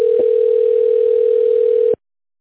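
A steady telephone tone plays while a call is connecting to an operator. One continuous, clear beep holds for about two seconds and then cuts off abruptly.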